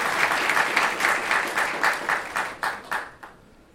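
A church audience at an Easter service applauds to welcome a guest. The clapping is dense at first, then thins into a few separate claps before stopping.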